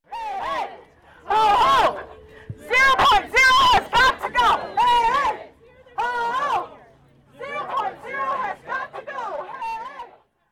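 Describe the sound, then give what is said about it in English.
More than 100 teachers rally outside a school district administration building over pay and resources. Loud shouted phrases come in short unison bursts with brief pauses between them. “That was the sound of more than 100 teachers gathered outside the Doyle Administration Building yesterday evening.”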